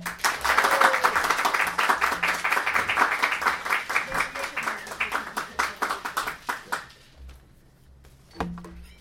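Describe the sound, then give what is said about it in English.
Audience applause welcoming author Richard Kadrey at a book reading: loud, dense clapping that gradually thins into scattered individual claps and dies away, followed by a single dull knock. “Please welcome Richard Cadry.”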